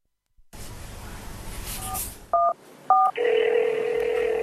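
Telephone keypad dialing to place a call urging someone to donate blood: a few short dual-tone beeps over a low hiss, then a steady tone that holds to the end.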